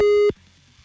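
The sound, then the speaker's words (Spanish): Phone busy signal heard while calling someone: one steady, loud beep tone holds briefly and cuts off abruptly, leaving only a faint low hum. “No puede ser, vamos a seguir marcándole”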